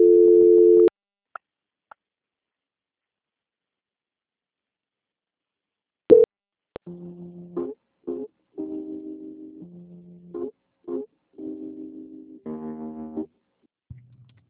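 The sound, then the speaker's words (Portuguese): Telephone tones sound while a call is transferred: a steady tone, then several seconds of silence, then many short electronic beeps at shifting pitches, alternating in a choppy pattern. “Só um minutinho, dona Maria, por favor. Transferência.”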